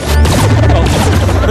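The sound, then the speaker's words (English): An original Star Trek missile-firing sound effect: a loud, dense, crashing burst that holds steady for about a second and a half. “If you've never watched Star Trek, you're like, okay, they shot the missiles at him. But if you have, I thought the same thing. I didn't quite have the same epiphany as you did. Was so awesome. But I thought, that's the original sound.”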